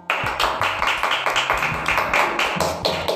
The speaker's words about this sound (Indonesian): Give a big applause to our guest star Melani Lida.